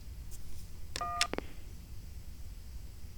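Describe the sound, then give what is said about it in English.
Telephone keypad DTMF tones on an automated directory line: a few short, bright beeps in quick succession over faint background hiss. “Dial the first few letters of the person's last name or press 1 to spell by first name.”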